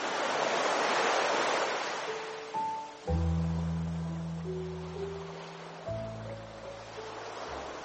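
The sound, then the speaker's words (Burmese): Ocean waves at Pelican Beach in Myanmar, a broad, soft rushing of surf that is fullest at the start and then eases and thins out. “ပလီကန်းစီဟာမြန်မာနိုင်ငံရဲ့နာမည်ကြီးထင်ရှားလာတဲ့ကန်းစီတွေကတစ်ခုပါ။လှပတဲ့နေဝင်ချိန်ဒီလင်းငင်းလေးတွေတိုက်ခတ်မှုတွေကြောင့်လှုပ်ရှားနေတဲ့အုံရွက်လေးတွေနဲ့အတူ”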